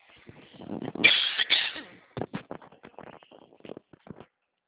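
Coughing after choking during a phone call, with narrow telephone-band sound. A strong fit of hacking coughs comes first, followed by several shorter, quieter coughs and breaths.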